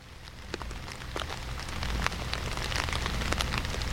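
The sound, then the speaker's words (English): Steady rain patters on a surface in a dense, continuous hiss of many small drops, with scattered sharper taps; fairly faint, with no voices. “trying to summon some rain with this background, these background sounds you're hearing”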